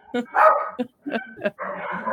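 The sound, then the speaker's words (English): Claude the dog barks in a quick run of several sharp, mid-pitched barks and yips, with short gaps between them. “Based solely on his bark, I can only imagine the size of Claude's”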